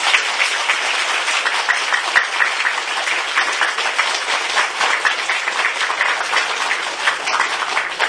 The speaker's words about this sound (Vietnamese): Nếu đúng như vậy quý vị cho một tràng pháo tay.